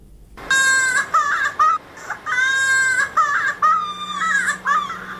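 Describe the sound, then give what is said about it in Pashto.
A child cries at the start of a report on polio vaccination in Helmand: loud, high wailing bursts that repeat several times with brief catches of breath between them. “د الیاس دایی په دغه تفصیلي راپور کې اوریدلی سي چې د یوه ماشوم په ژړا پیلېږي”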